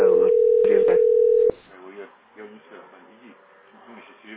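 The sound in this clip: A telephone dial tone holds one steady pitch for about a second and a half, then cuts off abruptly as talking begins.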